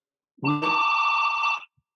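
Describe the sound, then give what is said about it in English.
A home doorbell rings loudly: one sustained electronic chime, just over a second long, opening on a brief lower note before settling into a bright, steady, higher ring that cuts off cleanly. “Ringing our doorbell. Oh, it's very loud.”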